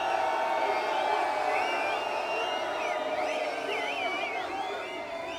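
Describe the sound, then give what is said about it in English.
A noisy crowd cheering and whooping at a DJ set, a loud continuous roar with wavering, siren-like whistles rising and falling through the middle before the noise tapers a little. “where's the noisy crowd?”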